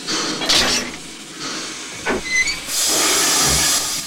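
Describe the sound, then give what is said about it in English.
Steam locomotive engine uncoupling from its train cars: a few short bursts of hissing steam and a sharp metallic clank near the middle, followed by a loud, sustained hiss of venting steam that runs to the end. “The engine uncouples from the rest of the train and Marty leaps on board. The engine chugs away in a new direction,”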